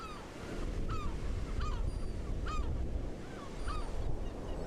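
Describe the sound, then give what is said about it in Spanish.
Seagulls call on the coast near Mejillones, giving many short, sharp, rising cries at irregular intervals. The cries ride over a continuous low roar of surf and wind. “Sin embargo, son las gaviotas las que más frecuentan la zona de los Mejillones.”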